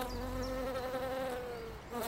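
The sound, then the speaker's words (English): A bee buzzes steadily, a droning, slightly wavering tone, heard alone and fairly faint, with a brief dip just before the end. “Do you want some help, Mrs. Bee? I can show you some of the prettiest flowers in my garden.”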